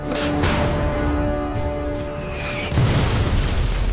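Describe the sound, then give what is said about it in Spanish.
Artillery shells explode among German mountain-division soldiers in a World War II battle on the Rhine, a loud, deep, continuous rumble of blasts with a heavier burst late on. “Los proyectiles sobrevuelan sus cabezas y caen entre los soldados alemanes de la división de montaña.”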